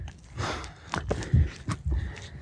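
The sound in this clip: Hurried footsteps climbing a steep dirt path up to the Edelweißhütte, heard as quick, irregular scuffing treads with a few heavier footfalls.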